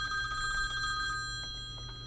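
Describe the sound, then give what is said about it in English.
A telephone ringing on an outgoing call, heard as faint, repeated electronic ring tones pulsing briefly with no voices. “I do have a call here. Let's dial up the number.”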